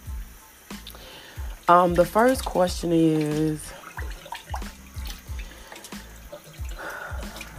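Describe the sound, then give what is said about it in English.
Tap water running and splashing while coffee is being made, a steady hiss with drips and clinks beneath a person talking, continuing throughout. “Excuse the noise because I'm making me some coffee.”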